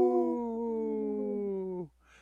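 A single wolf howl rings out, long and sustained with a clear tonal pitch that drifts slightly downward before abruptly stopping.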